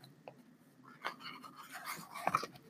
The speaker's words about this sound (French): je suis en train de feuilleter le livre en même temps que je s'en parle.